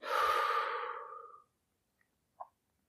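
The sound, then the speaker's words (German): One long, deep breath out during a guided relaxation meditation, loud and breathy, easing off over about a second and a half before near silence with a faint tiny click. “Wenn du beim Becken angekommen bist, dann atme nochmal ganz tief ein. Und beim Ausatmen lässt du noch weiter los.”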